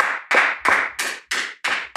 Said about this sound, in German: Schön, dass du jetzt geklatscht hast.